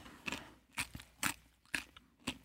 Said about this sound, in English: It should have been baby carrots. It's kind of hard to chew.